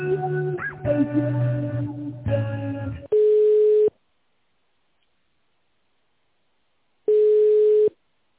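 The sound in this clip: Two steady telephone line tones play while a call is being transferred. Each is a level, mid-pitched beep lasting under a second, separated by a few seconds of silence and preceded by a short stretch of other tonal sound.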